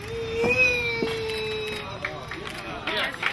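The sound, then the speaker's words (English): A man straining to lift heavy weights, two stone lions and a large bodybuilder, before a crowd: a long held vocal tone that then wavers and breaks, with crowd murmur underneath. “That's the sound of spiritual leader Sri Chinmoy demonstrating his incredible weightlifting powers before an adoring crowd.”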